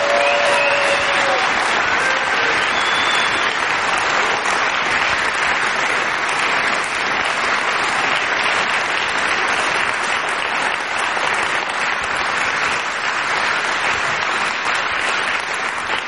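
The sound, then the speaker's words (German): Thunderous audience applause at a church gathering, a loud, dense and unbroken wall of clapping that holds steady from start to finish. “Und ich möchte jetzt einfach mal, dass wir mal einen tosenden Applaus loslassen, der bis ins erste OG zu hören ist”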